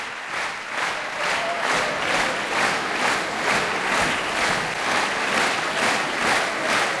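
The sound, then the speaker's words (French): Rhythmic, synchronized clapping from a concert audience at La Roque d'Anthéron calling a performing duo back to the stage, many even beats pulsing at a steady tempo with a crowd murmur beneath. “Vous l'entendez, Ludmila Berlinskaya et Arthur Ancel sont rappelés par le public de la Roque d'Antero. Ils reviennent sur scène.”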